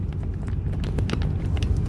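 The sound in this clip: Car driving on the road: a steady low rumble from the moving vehicle, overlaid with scattered faint clicks and knocks, with no talking.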